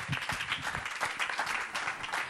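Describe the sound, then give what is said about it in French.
Audience applause at a French event, a dense, steady wash of many hands clapping that holds at an even level for the whole stretch with no voices on top. “On peut applaudir.”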